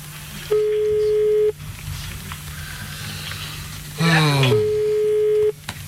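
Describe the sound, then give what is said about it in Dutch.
Ringing tone of an outgoing telephone call, two long, steady low beeps separated by a pause of about three seconds. “Bel eens naar de Golden Showers.”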